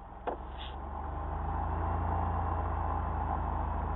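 A light aircraft engine runs up to 1700 RPM during a ground check. A short click comes first, then a low droning hum builds over about two seconds and holds steady and loud.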